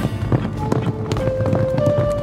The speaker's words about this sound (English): The Lone Ranger and Captain Preston raced their horses along the canyon road